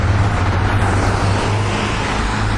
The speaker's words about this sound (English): let that traffic get by there.